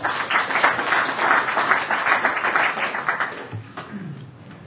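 Applause from an audience welcoming two presenters onto the stage, a dense, steady wash of clapping that holds for several seconds and then thins and softens toward the end.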